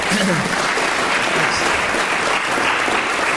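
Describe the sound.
An audience at the LSE gives dense, steady applause welcoming a lecturer on the Cold War and the culture of secrecy. The clapping is loud and continuous throughout, with no pauses.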